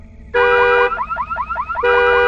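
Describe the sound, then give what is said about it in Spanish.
A car alarm blares loudly on its own. A steady high electronic tone gives way to a run of rapid warbling chirps, then the steady tone returns. “La alarma del carro se activó sorpresivamente, lo cual me hizo saltar.”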